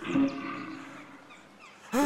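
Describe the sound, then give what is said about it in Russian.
A bear roars in two loud, deep, harmonic bursts, one at the start and one at the end, with a rough, lower growl running between them. “Медвежий? Медведь? А откуда здесь медведь?”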